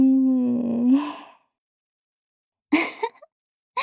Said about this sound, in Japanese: 鼻から息を大きく吸って、吐いて